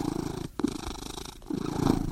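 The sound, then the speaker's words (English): A big old long-haired cat purrs in a steady, low, rumbling drone, broken by two brief pauses for breath, with no voices. “She's the latest addition to our household, a big old long-haired cat we found wandering the neighborhood.”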